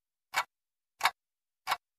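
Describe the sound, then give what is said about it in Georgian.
A clock ticks three times, each tick a sharp, bright click evenly spaced about two-thirds of a second apart, fairly quiet and heard alone with silence between. “ტიკ ტიკ ტიკ. ტიკ-ტიკებს საათი.”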